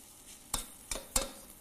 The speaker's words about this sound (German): die Mandeln sollten jetzt schon ein bisschen mit dem Öl dann ein bisschen braten, weil dann entfaltet sich auch der Geschmack besser.